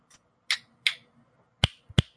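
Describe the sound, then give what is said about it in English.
A few crisp finger snaps ring out in a short, uneven sequence. The last two are heavier and more percussive. “That was a snap.”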